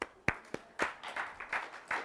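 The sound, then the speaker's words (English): A few scattered, quiet claps from a lecture audience applauding a participant, sharp separate hand claps with gaps between them rather than a full ovation. “Give James a round of applause.”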